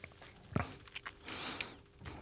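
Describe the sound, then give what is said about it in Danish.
Someone eats chocolate with a few faint crunchy bites and soft chewing. The bites are brief, irregular and separated by quiet gaps. “Spiser du chokolade på? Mhm, dejligt.”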